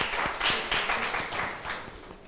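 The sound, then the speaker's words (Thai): Students clap for a classmate during a lesson, a dense, steady patter of many hands blending into continuous light applause at moderate volume. “เก่งมากปรบมือให้เพื่อนค่ะ”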